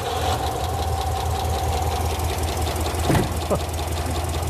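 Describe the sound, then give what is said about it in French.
An old V8 engine runs rough on only about four cylinders, one side of its fuel supply dead, giving a steady, lumpy low throb with a knocking pulse throughout. “Pas terrible, ça. Non, pas pour un V8. On dirait qu'il tourne sur 4 ou 5 cylindres. À mon avis, seulement 4.”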